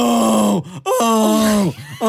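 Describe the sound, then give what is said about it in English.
A voice imitates the groan of a woman news reporter who fell over while smashing grapes with her feet. Two long, loud, drawn-out groans slide downward in pitch, with short dips between them, and a third groan begins. “A news reporter was smashing grapes and she fell over and she let out the worst groan ever.”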